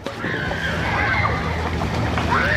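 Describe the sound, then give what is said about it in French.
Children splash and paddle in a swimming pool, leaning on inflatable unicorns and giant pizza-slice floats, with a steady wash of sloshing water under their voices. “Et les enfants peuvent barboter tranquilles, appuyés sur des licornes gonflables ou des bouées en forme de parts de pizza géantes.”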